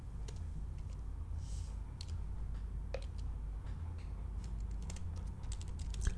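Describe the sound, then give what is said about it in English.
Someone types a search into Google on a computer keyboard: faint, irregular clicks and taps over a low, steady background hum, with no speech. “I'm going to type it into Google again right now just to get at the book. Hang on 1 second. You're going to hear some radio silence as I do that.”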